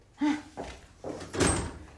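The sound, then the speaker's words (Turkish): A door being opened gives a few short, fairly faint thuds and rattles spread across two seconds. “hadi aç şu kapıyı bakayım.”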